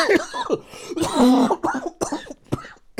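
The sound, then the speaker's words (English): A coughing fit: a rapid series of loud, harsh, raspy coughs and throat-clearing bursts in quick succession, separated by short gaps, with no talking. “you get Instagram content and coughing attacks. I promise you it is not from any sickness.”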